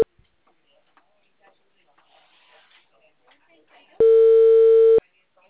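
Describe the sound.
A telephone ringing tone sounds while calling someone: one steady, bright tone lasting about a second, following a stretch of near silence with faint scattered rustles.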